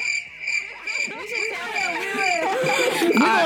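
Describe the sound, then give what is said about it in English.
Crickets chirping in a steady, shrill, high-pitched trill that holds throughout while people talk over it. “They should put cricket noise.”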